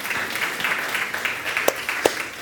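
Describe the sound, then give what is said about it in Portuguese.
An audience applauding at a worship service: a soft, loose patter of clapping with a few sharper, louder claps standing out toward the end. “Aplauda ao Senhor.”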